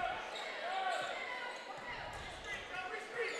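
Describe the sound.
A basketball is dribbled on the court during a game between Lexington and Wooster, its repeated bounces blending into a steady wash of crowd noise.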